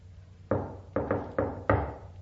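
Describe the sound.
Knocking on a door: five firm, solid knocks in an uneven rhythm, fairly loud and clear, with no voices.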